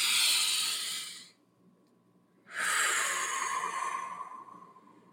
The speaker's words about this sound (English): I'm going to take a deep breath because my voice is not doing what I wanted to.